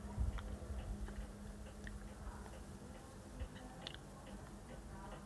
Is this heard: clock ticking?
yes